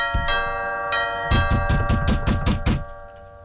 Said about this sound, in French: Ça fait deux fois que je sonne, là.